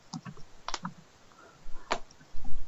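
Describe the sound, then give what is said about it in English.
Typing on a computer keyboard: a few sharp, scattered key clicks separated by short pauses, with a small cluster early on and another near the end, heard alone with no talk. “I feel like I came and typed this in right.”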